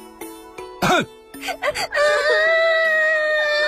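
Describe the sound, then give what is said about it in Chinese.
Children crying and wailing: sobbing cries with wavering pitch that build into a sustained, loud, high wail, with voices mixed in. “别哭了，你们这些小贼。”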